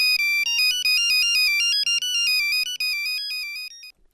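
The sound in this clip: A mobile phone ringtone plays, a loud electronic melody of rapid bright high notes that repeats steadily for about four seconds with no other sound, then cuts off.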